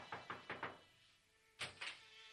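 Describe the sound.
Knocking on a door: a quick run of four faint raps, a short pause, then a few more knocks in a tight cluster, all soft and muffled.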